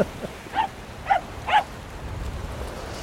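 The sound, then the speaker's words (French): A few short, faint yipping barks from a dog on a beach in Dublin, spaced about half a second apart, followed by soft background noise. “Un chien dublinois qui profite de la plage.”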